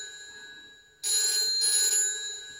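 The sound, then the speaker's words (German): A telephone rings with a steady, bright electronic trill. It starts abruptly partway through after near silence and stays loud to the end, with no talk. “Geh ans Telefon.”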